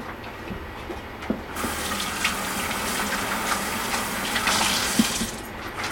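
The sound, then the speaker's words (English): Running kitchen tap as hands are washed after cooking: a steady rushing hiss of water that grows fuller after the first moment, broken by a few small splashes and clinks. “and wash my hands”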